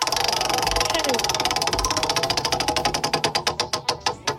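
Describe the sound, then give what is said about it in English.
A prize wheel spun on a radio country music trivia show ticks in a fast ratcheting stream. The clicks gradually slow and spread apart until the wheel almost stops. “Ready to spin the Hoot Owls Country Music Trivia Prize.”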